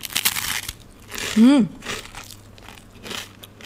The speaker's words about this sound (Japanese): いただきます。うん、あ、もうパリパリサクサクの軽いです。とってもサクサク。